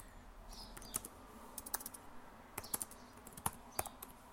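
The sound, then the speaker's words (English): Typing on a computer keyboard: many quick, irregular clicks and taps with uneven spacing, fairly faint, with no talk over them. “If I can actually type, maybe this would help people.”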